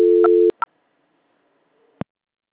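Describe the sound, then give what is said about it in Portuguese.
Telephone tones heard during a call transfer: a steady low tone for about half a second, a short beep right after, then silence broken by a single click near the end. “Eu tô transferindo a ligação, aguarda só um instante, tá bom?”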